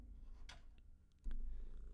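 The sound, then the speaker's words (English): A cat's purr, a faint low rumble that grows louder and steadier in the second half, with a few soft clicks and rustles before it. “For me and this cat, who makes recording things really hard sometimes.”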